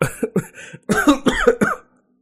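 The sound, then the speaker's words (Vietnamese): Violent dry coughing fit: a rapid series of harsh, rasping cough bursts that come in tight clusters, loud and alone, then stop abruptly. “Hắn đột nhiên ho khan kịch liệt, thân thể lảo đảo”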